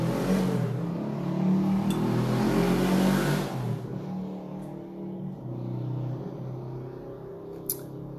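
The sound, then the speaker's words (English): Motorcycle engine rumbling in a steady, throaty drone that fills the whole clip, slightly louder in the first half and easing a little afterwards, with no talk over it. “pardon the motorcycle”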